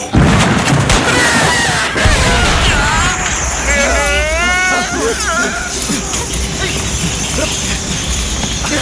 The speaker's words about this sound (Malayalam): ഇനി നമ്മൾ ഒരുമിച്ച് വെടിവെക്കണം. ആദ്യത്തെ റൗണ്ട് തന്നെ വെടികൊള്ളണം, അല്ലെങ്കിൽ അവർ ഓടിക്കളയും.